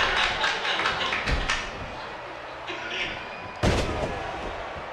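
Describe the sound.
Neckbreaker slam in a wrestling video game, heard as a few sharp, heavy thumps that cut through a dense, continuous wash of noise.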